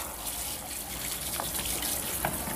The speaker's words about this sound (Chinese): 我听不清，我洗澡呢。